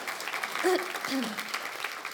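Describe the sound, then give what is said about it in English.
Applause for a church welcome team: a crowd claps in a dense, fairly soft patter, with brief voices rising over the clapping. “Let's give our welcome team a round of applause.”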